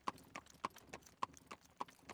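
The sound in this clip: Horse hooves clip-clop as a horse-drawn carriage moves along. The faint clopping keeps a steady, even rhythm, with sharper knocks alternating with softer ones.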